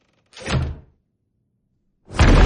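Door to a hallway being slowly closed, two broad dull thudding sweeps separated by a silent pause, the second one louder and heavier.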